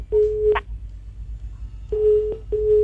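Telephone busy signal beeping during a phone call: three steady, same-pitch beeps, each ending with a click, the first followed by a long pause and the last two close together, heard alone and clearly.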